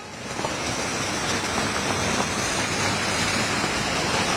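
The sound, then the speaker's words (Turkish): Heavy rain pouring onto a flooded road covered in floodwater: a dense, continuous rushing hiss that rises quickly and then holds loud and steady. “Yollar göle dönmüş durumda. Birkaç dakika içerisinde pek çok noktanın su altında kaldığını gördük. Bakın Celal hızlı bir şekilde göstersin. İki tellideyiz şu anda ve görmüş olduğunuz yolda da şiddetli şekilde yağışın etkisiyle”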